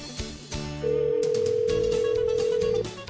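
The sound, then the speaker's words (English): One long, steady mid-pitched ringback tone sounds as a telephone call is placed to a bait shop, lasting about two seconds over a busy background before stopping. “So let's head to the eastern end of the UP and dial up Mick here at Mick's Bait Shop in Curtis.”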